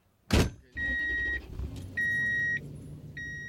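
A car door thud, then three spells of steady high-pitched chime beeping over a low engine rumble, on a drive beyond the fences into Arizona pronghorn habitat.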